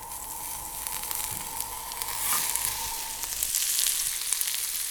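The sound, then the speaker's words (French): Butter melts and sizzles in a frying pan around asparagus arranged like a nest, with a space left in the middle for an egg. A steady, bright crackling hiss runs throughout with small pops and no talk. “Et c'est là-dedans qu'on va ensuite casser notre œuf. Le beurre est en train de fondre.”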